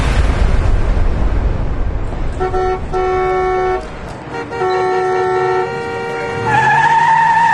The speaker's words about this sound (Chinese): 你怎么开车的呀？你怎么还加塞呢？